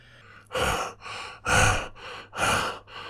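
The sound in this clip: A voice acts out heavy, breathless panting after exertion, the sound of someone exhausted. It comes as three loud rushing breaths alternating with softer ones in an uneven rhythm, with no talk.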